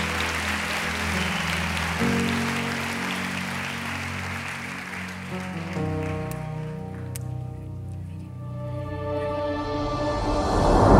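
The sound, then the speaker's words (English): Audience applause in a church: steady, dense clapping fills the whole stretch over sustained musical tones and swells louder at the end. “Come on, can we put our hands together, make some real noise? Come on, real noise.”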